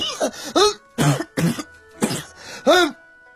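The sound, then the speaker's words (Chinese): Harsh, choking coughs come from someone who bit into a steamed bun with an unexpected spicy filling. They arrive as a series of loud, irregular bursts with short gaps between them. “哎呦，你这包子怎么里面还搁辣的？呛我直咳嗽，真是。”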